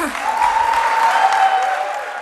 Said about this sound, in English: That crowd gave Page a standing ovation.